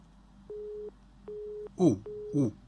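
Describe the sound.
A telephone busy tone sounds after a caller's line has dropped: three steady, evenly spaced beeps, with a voice briefly speaking over the last of them.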